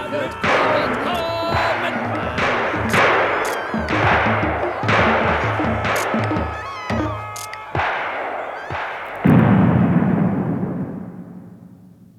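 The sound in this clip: A volley of gunfire in a German radio drama, soldiers shooting to break up a forbidden ghost dance. Many sharp, loud shots land one after another over a bed of voices, ending in a heavier burst that slowly fades out.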